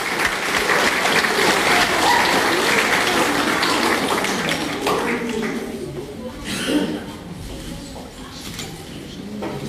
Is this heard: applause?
yes